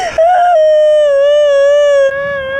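A woman's loud, sustained wailing cry, one long, high, steady-pitched note with strong harmonics that wavers slightly before dropping in strength near the end.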